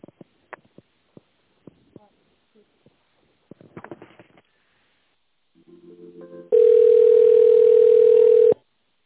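A telephone line tone plays while an office call is transferred to a specialist. A few scattered clicks and faint rustles come first, then a short lower buzz, then a loud, steady, unbroken tone that holds for about two seconds before cutting off.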